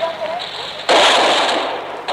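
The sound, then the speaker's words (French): Gunfire from a barricade during street fighting in Paris, August 1944: a sudden loud blast opens into a sustained, noisy rattle of shots, with a fresh burst starting right at the end. “La barricade vient d'ouvrir le feu.”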